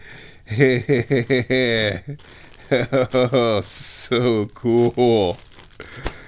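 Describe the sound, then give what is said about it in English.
Craft paper crinkles and rustles as it is unwrapped from around a plastic bag, in short bursts heard under a person talking. “It feels like fabric wrapped in craft paper. Let's undo the paper. Oh, it's lots of craft paper, and inside the craft paper is a plastic bag.”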